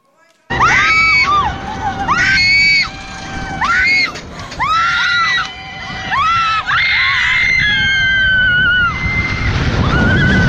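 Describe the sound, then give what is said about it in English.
Riders on a roller coaster shriek in terror, with repeated high-pitched screams rising and falling over a constant rush of wind rumble as the ride plunges. “Watch this roller coaster ride.”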